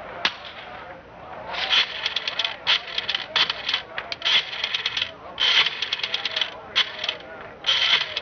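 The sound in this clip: Rotary telephone dial being turned and whirring back in a radio drama: a run of many ratcheting, clicking bursts with short pauses between them, fairly crisp and alone, with no talk.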